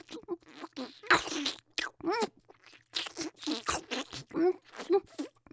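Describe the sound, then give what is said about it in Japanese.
Crunchy biting and chewing as someone eats food: many moist, crackling bursts come in irregular clusters, close and fairly loud, with short pauses between bites. “じゃあそろそろ食べちゃうね。いただきまーす。”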